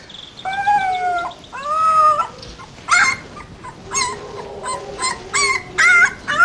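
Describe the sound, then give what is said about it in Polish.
Wolf pups and adult wolves howl and cry: two drawn-out, wavering whine-like howls, then a string of shorter, high yelping calls with rich harmonics. No people speak. “Jeszcze wilczków małych i wilków dużych, żebyśmy sobie wyobrazili, jak one się odzywają.”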